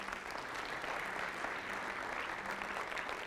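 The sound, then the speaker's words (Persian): During a church service, an audience claps for themselves in quiet, dense, continuous applause. The clapping stays at a steady, even level from start to finish. “اما الان در حضور خداوند عیسی مسیح برای خودتون یه دست بزنید.”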